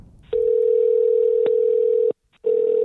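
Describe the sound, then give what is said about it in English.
A steady electronic ringing tone on an outgoing phone call: one long, even burst of about two seconds, a brief silence, then the tone starts again. “There it is. Phone is ringing.”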